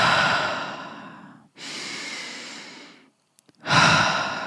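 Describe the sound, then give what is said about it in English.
Slow, deep breathing, in through the nose and out through the mouth during a mindful breathing exercise: a few long, airy breaths separated by short pauses, with no talking. “Okay, so just inhale through the nose, out the mouth.”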